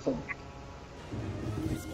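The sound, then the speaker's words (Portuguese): A duck quacks in short nasal bursts near the start, then a steady low rumbling noise continues with no clear calls. “Pato?”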